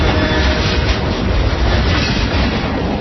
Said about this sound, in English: That's the sound of a CSX train doing its part to move the economy forward.